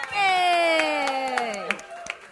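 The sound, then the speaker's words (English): An audience cheers and claps for a performing act at a live show: a loud whooping cheer slides downward in pitch over scattered sharp claps, which thin out toward the end. “Make some noise for Nacho Pop.”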